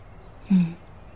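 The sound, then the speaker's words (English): One quiet, deep breath is drawn in, a brief soft inhalation lasting well under a second against low background hiss. “The late fall breeze caresses the back of my neck, and I take a deep breath in.”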